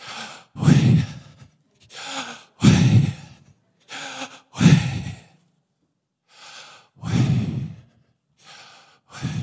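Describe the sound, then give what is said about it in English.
Heavy breathing from a person, like someone breathing hard during a jog: many loud, breathy inhales and exhales in an uneven rhythm, separated by short silences, with no talking. “Try going for a jog one day, and what does it sound like when you breathe?”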